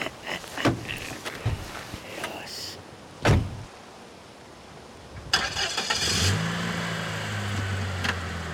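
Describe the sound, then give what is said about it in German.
A BMW car: soft clicks and rustles, then a sharp door thump, followed by the engine starting and settling into a steady low running hum. “Der BMW wendete, rangierte an dem Körper der reglosen Studentin vorüber und verschwand in Richtung Landstraße.”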